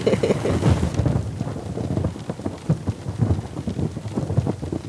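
Rain falls steadily outdoors in a backyard during a thunderstorm, a dense hiss of drops with low rumbling underneath, loudest in the opening second before settling into a continuous, even downpour with scattered sharper spatters.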